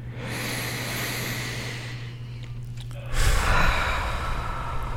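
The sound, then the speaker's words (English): A deep breath drawn in through the nose during a guided breathing exercise: one long, steady, airy inhale lasting several seconds, growing louder over its final stretch, with no talking. “So let's get three of those into us. In 3, 2, 1, all the way in through the nose.”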